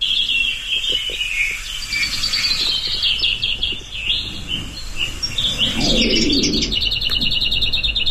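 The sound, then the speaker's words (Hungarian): A lesser whitethroat sings in a series of rapid, high, rattling trills and chirps. The phrases are bright and fairly loud over a low, steady outdoor hum. “Akkor most hallgassuk meg, hogyan énekel a kisposzáta.”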